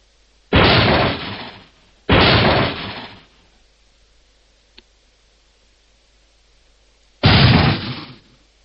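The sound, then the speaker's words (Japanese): Three gunshots ring out through a guesthouse: two loud, sharp blasts in quick succession, each with a brief decaying echo, then a long pause before a single final shot. “二発の銃声、間を置いて一発の銃声がペンション中に響き渡った。”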